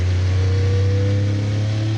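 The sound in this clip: Loud, steady engine drone from an 800-horsepower race car accelerating out of a hairpin turn, a deep tonal hum with layered harmonics that holds a fairly even pitch throughout.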